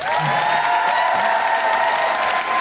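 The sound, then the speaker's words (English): A live audience applauds and cheers to welcome guests at an Amnesty International UK event, with steady, dense clapping and some cheering, all at an even level throughout. “please put your hands together and give a big Guilty Feminist Amnesty International UK welcome to Aloysius and Doris!”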